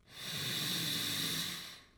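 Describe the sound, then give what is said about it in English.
A single deep breath in during a breathing exercise: a smooth, airy hiss that swells steadily for about two seconds and then tapers off at the end, heard alone without talk. “Breathe in.”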